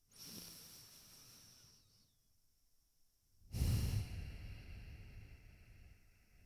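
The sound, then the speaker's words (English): Deep breathing during a guided relaxation: a long breath drawn in over about two seconds, then after a short pause a second, louder breath that slowly fades, with no talking. “Take a big, deep inhale.”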